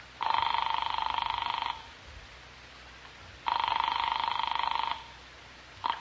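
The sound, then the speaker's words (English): Ringing on a long-distance telephone call from a house to New York: two long, buzzing ring bursts with a pause between them, then the start of a third, faint over a low hiss. “I found a telephone with no one around. I dialed Cal Hendricks' number in New York.”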